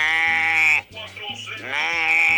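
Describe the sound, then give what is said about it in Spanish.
A person imitates a sheep's bleat with loud, wavering, nasal cries. A strong bleat dips briefly, a softer rougher stretch follows, and the bleating returns at full strength. “el animal es el ovejo”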